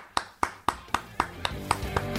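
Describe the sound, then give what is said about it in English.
Eight sharp, evenly spaced claps applaud a caller on a call-in show, falling in a slow, steady rhythm, each crisp hit ringing briefly, with the later ones slightly softer. “Let's have a round of applause for Dave from Connecticut.”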